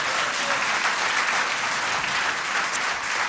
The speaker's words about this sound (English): Give him another round of applause.